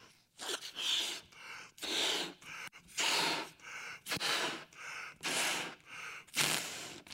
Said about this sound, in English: For example, if I breathe into this,